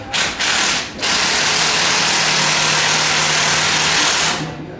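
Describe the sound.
A power tool drives in screws with a loud, steady mechanical whir, broken by two short pauses near the start before running continuously and tapering off at the end.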